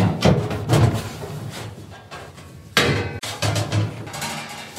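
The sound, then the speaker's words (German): Oven door opening and cookie trays going into a preheated oven: a few loud metallic clanks and scrapes come in irregular bursts, with a sharp clatter near the end. “Die Plätzchen kommen in den Ofen. Er ist schon vorgeheizt. Ich mache ihn auf.”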